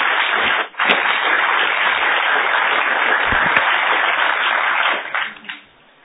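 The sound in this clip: Sustained audience applause welcoming a speaker to the stage: a dense, even clatter of many hands that holds steady for about five seconds, then tapers off and stops.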